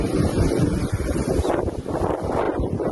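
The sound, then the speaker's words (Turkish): Wind roaring from a tornado that formed in Menemen, İzmir, during a brief hailstorm. It is a loud, steady, rumbling rush with gusty buffeting against the microphone that lasts the whole time, with no voices. “Kısa süreli dolunun etkili olduğu Menemen'de hortum oluştu.”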